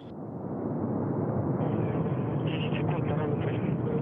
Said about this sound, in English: At maximum thrust. And liftoff. Soyuz MS-18 on its way to the International Space Station.